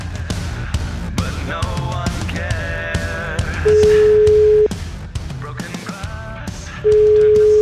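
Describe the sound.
Outgoing phone call ringing through to a beautician in her shop: two long, steady mid-pitched ring tones about three seconds apart, the first following a stretch of music, the second running to the end.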